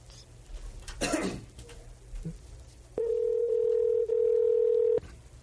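Ringback tone of an outgoing phone call: one steady, loud, mid-pitched tone lasts about two seconds and then stops. It follows a quieter stretch with a brief noisy burst.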